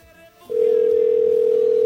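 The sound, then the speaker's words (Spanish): Telephone ringback tone on a call that goes unanswered: one loud, steady, unbroken tone begins after half a second of low background noise and holds evenly to the end, with no voices. “Está sonando, pero no contesta.”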